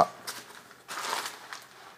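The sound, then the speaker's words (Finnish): Crinkling and rustling as a homemade first aid kit is opened flat like a book, with a few soft crumpling bursts of packaging and fabric. “Ensimmäinen oli ihan se, että tämä paketti aukeaa näin kuin kirja tähän eteen, jolloin”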